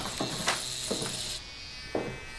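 Electric clippers buzz steadily as they shave a boy's head for lice, a continuous high whir marked by a few brief louder scraping strokes, with no voices.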